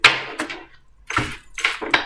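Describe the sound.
Tarot cards being shuffled by hand make a few brisk, papery bursts of rustling and flicking, separated by short pauses, with no voices over them.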